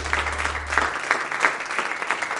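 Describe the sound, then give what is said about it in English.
Congregation clapping hands in praise at a Christmas church service: a steady run of many claps with a low hum under the first second. “Let's give the Lord a hand clap of praise.”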